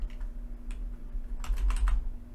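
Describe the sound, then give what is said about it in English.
A search being typed on a computer keyboard: a few scattered key taps, then a quicker cluster of keystrokes over a steady low hum. “let's look it up. Jurassic. I didn't type in juices. I typed in Jurassic.”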